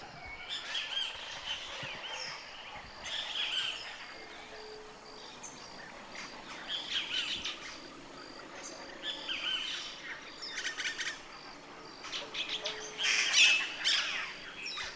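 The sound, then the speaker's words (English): Morning birdsong along a river where houses are scarce: many chirps, tweets and squawks from several birds overlap in a fairly faint, busy chorus, with a thin insect trill beneath. “the morning is flooded with the voices of the birds. A celebration of song.”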